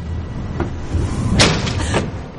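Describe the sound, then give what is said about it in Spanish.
The wind slams a window shut with one sharp bang near the middle, flanked by a couple of softer knocks, over a steady rushing noise. “el viento cierra la ventana.”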